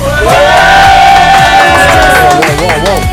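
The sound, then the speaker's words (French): A live audience cheers loudly at a season-premiere show, a sustained roar of shouting voices with high whoops rising above it throughout. “on a un public en folie”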